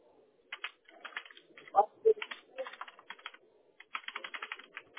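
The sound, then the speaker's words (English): Someone types a name into a signature box on a computer keyboard: quick, quiet clusters of keystrokes broken by short pauses, with a brief voice in the middle. “Click here to type your name. Type your name exactly as it reads there in that box.”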